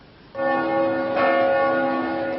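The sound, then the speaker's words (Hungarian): A large Reformed church's bell ringing. After a brief quiet start, a resonant, sustained metallic tone sets in, and a second strike about midway brightens the ringing. It rings on alone with no voices. “a nagy templom harangjának hívására”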